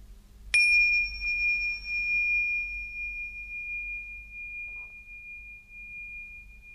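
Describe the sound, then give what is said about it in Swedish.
Meditation bells struck for a single clear strike, followed by a long, pure, high ringing tone that decays very slowly and sustains for several seconds over a quiet low hum. “Klangen från de här klockorna åskådliggör vad jag menar. När jag slår an klockorna riktas uppmärksamheten på ljudet, och den långa efterklangen hjälper dig att behålla uppmärksamheten på ljudet.”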